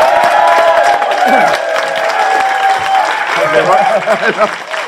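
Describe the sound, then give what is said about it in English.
Loud applause and cheering from a live audience welcoming a political guest, a former Shadow Northern Ireland Secretary, with dense, sustained clapping and crowd voices continuing throughout. “Ladies and gentlemen, raise the roof, please, for Mr. Owen Smith.”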